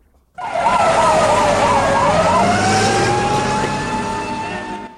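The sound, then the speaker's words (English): Emergency sirens from gathered ambulances, fire engines and police blare loudly, one siren warbling rapidly up and down while steadier tones hold beneath it, all sustained throughout. “Outside, ambulances, fire engines and police are gathered.”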